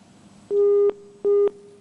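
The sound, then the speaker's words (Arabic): Telephone busy tone after a call drops: two steady mid-pitched beeps separated by a short gap, over faint line hiss. “انقطع الاتصال معنا”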